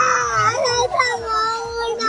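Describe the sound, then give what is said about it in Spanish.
A little girl cries in a tantrum over a doll, a continuous wailing sob with shifting pitch that rises and dips, loud and without pause. “La niña llora porque no es la muñeca que ella quiere.”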